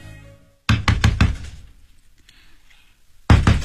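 Knocking on a door late at night: a quick run of several loud, hard knocks, a pause with faint background sound, then another burst of sharp knocks starting.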